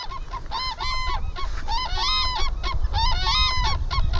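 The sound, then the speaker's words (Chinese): Two adult black-necked cranes of one family calling in a highland wetland, loud, high, honking trumpet-like calls in three clustered bursts of rapid repeated notes, one bird answering the other. “在我们观察的时候，黑颈鹤家庭的两只成年鹤发出了鸣叫，高亢的鹤鸣清晰可闻。”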